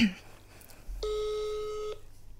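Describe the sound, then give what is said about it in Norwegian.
A telephone tone sounds as a call is being dialed: one steady electronic beep about a second long, fairly faint, alone against quiet background. “Ja, jeg skal ringe her nå.”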